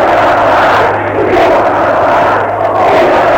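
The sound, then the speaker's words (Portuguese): A loud crowd of workers chants in unison at a 1974 CPT-CLP demonstration outside the Rádio Renascença studios, a dense, continuous roar of voices that swells rhythmically with each repeated phrase. “passa neste momento, disse eu, a manifestação do CPT-CLP, que foi a justa luta dos trabalhadores da Rádio Renascença. Eles dizem viva a classe operária, conforme podem ver.”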